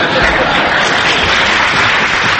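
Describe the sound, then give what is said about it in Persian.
Audience applause after a Persian-language speech: dense, continuous clapping that holds at an even loudness throughout, with no gaps. “فقط یادتون باشه با این دست زدناتون کار دست من ندین.”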